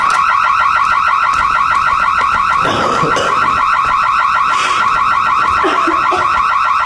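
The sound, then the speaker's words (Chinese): An alarm goes off with loud, continuous electronic tones that warble in a fast, steady cycle. Brief bursts of rustling noise sit underneath. “什么声音啊？这是 报警器。”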